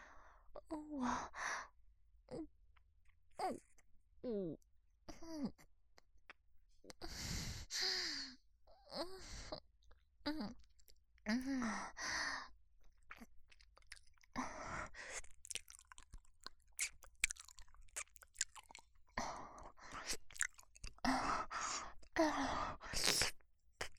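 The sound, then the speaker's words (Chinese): Passionate kissing, with wet, smacking mouth sounds broken up by breathy sighs, soft moans and heavy breathing, alternating in short bursts and pauses. “热烈的接吻。”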